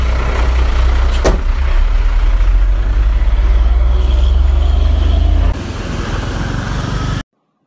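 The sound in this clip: A garbage compactor truck's engine rumbles loud and steady, with a brief sharp burst early on. The rumble drops in level near the end, then cuts off abruptly.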